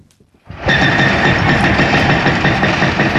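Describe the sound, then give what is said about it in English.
Heavy machinery runs loudly while demolishing a Palestinian house below Jerusalem's walled old city, a steady deep engine rumble with faint knocking that starts after a brief quiet moment and holds level to the end. “From a hillside beneath Jerusalem's walled old city, I watch a Palestinian house being torn down.”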